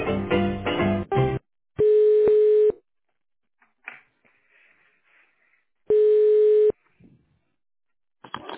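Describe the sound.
Ringback tone on a telephone line while a call is transferred to a secretary: two short, steady mid-pitched tone bursts separated by a few seconds of near-silence, each even in loudness and cutting off cleanly.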